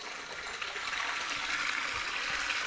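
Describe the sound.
Water running into a too-hot hot spring bath at Osorezan as cold water is added to cool it: a steady, even hiss and rush of flowing water, continuous and unbroken throughout.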